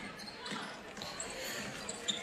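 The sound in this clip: A basketball bounces on the court during a girls' high school game between Zumbrota-Mazeppa and Goodhue as a player bounces it through the lane. The bounces are soft thuds amid gym noise, with a few sharper knocks near the end.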